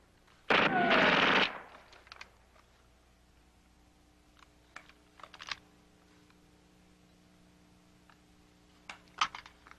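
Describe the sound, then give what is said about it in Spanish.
Gunfire in an action scene from the 1982 film First Blood: one loud, dense burst of rapid shots, followed only by faint scattered clicks and pops. “¡Cuidado! ¡Sigan disparando!”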